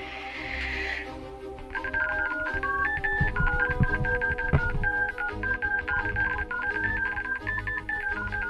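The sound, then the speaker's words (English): Keypad tones of a long telephone number being dialed: many short beeps at shifting pitches in a steady, quick sequence, after a brief rustling noise at the start. “I'm gonna make a real quick phone call here.”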